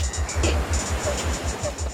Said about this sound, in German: Das Meer.